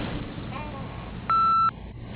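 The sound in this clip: An answering machine tone sounds once, a short steady electronic beep lasting under half a second, rising out of a faint, noisy background and then ending.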